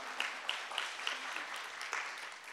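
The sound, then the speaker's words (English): A church audience applauds their pastor with steady, faint clapping that holds at an even level throughout. “Let's give him a hand.”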